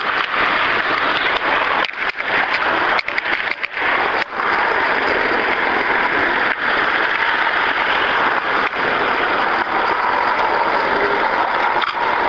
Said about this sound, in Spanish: estoy esperando que pase el tráfico para ver si puedo sacar la foto